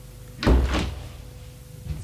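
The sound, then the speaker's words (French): A door swings open with two low, heavy thuds close together, followed by a fainter clunk near the end. “La porte s'est ouverte.”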